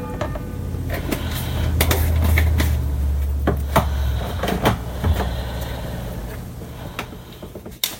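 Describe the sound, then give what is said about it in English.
A garlic clove crushed in a push-button garlic press, a quiet run of several sharp clicks and creaks over a low rumble, with no talk. “I'm crushing another garlic clove. just open it up and press a little button and the peel just comes right off.”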